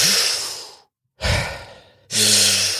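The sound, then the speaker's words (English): Breathing out in long, deliberate exhalations, three in a row, each a soft airy rush that fades as it trails off, with short silent pauses between them and no talk. “I could keep breathing out like, that's me breathing out.”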